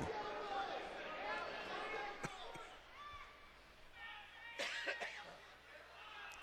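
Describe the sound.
Coughing from an ill commentator at a high school state wrestling finals, a few sharp bursts breaking up ongoing talk.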